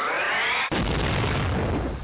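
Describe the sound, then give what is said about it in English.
A bomb explosion bursts in suddenly at about 0.7 seconds, cutting off an earlier tonal sound, and its loud, broad rumble carries on to the end. “Yeah, I dropped a bomb on you.”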